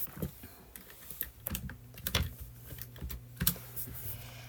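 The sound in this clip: Quiet typing on a computer keyboard to post in a chat: many irregular, crisp key clicks, with a few sharper taps standing out, heard alone.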